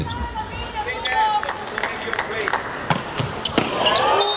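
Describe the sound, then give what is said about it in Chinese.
The Polish team serves in a volleyball match, a jump serve whose ball strikes land as a few sharp thumps over steady crowd noise and running commentary. “我们看波兰队这边的发球，暂停以后上来这个跳发”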